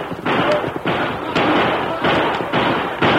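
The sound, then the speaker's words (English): Gunshots from a band of armed horsemen firing wildly into the air as they break cover toward a trail, loud repeated bangs and heavy thuds in quick succession over a continuous rough rumble. “band of armed horsemen broke cover and headed for the trail, firing wildly into the air.”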